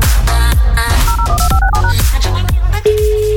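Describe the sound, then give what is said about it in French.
Touch-tone beeps as a telephone number is dialed: a quick run of paired electronic keypad tones over loud, continuous background music, then a single steady tone near the end. “C'est parti, on compose le suivant.”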